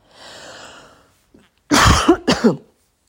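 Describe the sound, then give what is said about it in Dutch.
A rough throat rasp is followed by a loud burst of a couple of harsh coughs, each with a sharp onset and a quick fade, then silence. “Sorry voor mijn hoesje, ik hoop dat dat de enige is.”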